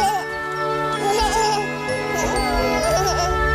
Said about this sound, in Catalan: Potser ho haureu reconegut, era el nadó dels Teletubbies, que obria cada capítol.